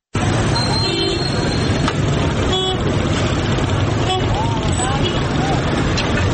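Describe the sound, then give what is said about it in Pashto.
Congested traffic in Kandahar city, a dense, continuous rumble of engines with a few short car horn toots rising above the noise. “کندهار اوسیدونکي په ښار کې د بې نظمه ټرافیکي ګڼې ګوڼې له زیات فعالې شکایت کوي.”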